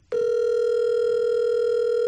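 An outgoing telephone call rings out, a single steady electronic ring tone that holds clean and unbroken for about two seconds. No voices are heard.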